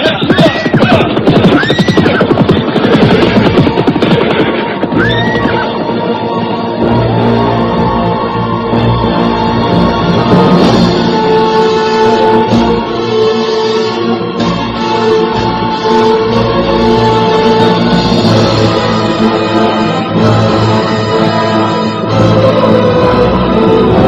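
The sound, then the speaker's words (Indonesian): Horses neighing as they set off on a ride. A few rising-and-falling whinnies sound in the first six seconds over a loud, dense, continuous background that runs the whole length. “Sekarang kita bisa kembali meneruskan perjalanan dengan kuda. Hiya, hiya, hiya, hiya.”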